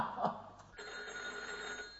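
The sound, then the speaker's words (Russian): A telephone bell rings in a hotel at night, a faint, steady electric trill that holds evenly after a brief softer start. “Кто же подойдет к телефону?”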